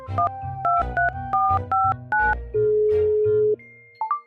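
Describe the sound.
A phone number is keyed in on a telephone: about six quick electronic keypad beeps in steady rhythm, then a steady tone lasting about a second, then a couple of short beeps, over a low background rumble.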